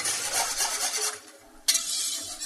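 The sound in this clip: A whisk stirs a boiling white sauce in a pot, making a continuous rhythmic scraping and swishing that thins briefly, then resumes with a sharp stroke.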